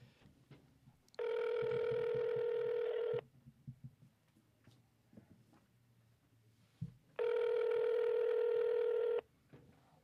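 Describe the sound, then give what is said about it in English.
A telephone line ringback tone sounds twice, each a steady buzzy purr lasting about two seconds, separated by a long pause with faint low background noise. “So all right, I'll dial him up here”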